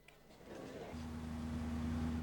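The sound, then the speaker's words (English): Car engine humming steadily as the vehicle drives through a sun-dappled cemetery, a low even drone that settles into a constant tone after the first second and continues without a break. “A car drives through a sun-dappled cemetery.”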